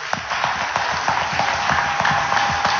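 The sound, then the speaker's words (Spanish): Applause from a church audience at an evening ministry service: a dense, steady wash of clapping that holds at an even loudness throughout, with faint regular accents. “Y yo quiero darle las gracias y quiero dar un aplauso a esas personas que son usadas por el Señor”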